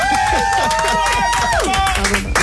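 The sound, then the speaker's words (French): Clapping in a radio studio as musician guests are welcomed, with quick, rapid claps running beneath a loud, sustained voice that slides downward near the end. “Bah là, tu m'applaudis, on dirait c'est mon anniversaire, ça me régale.”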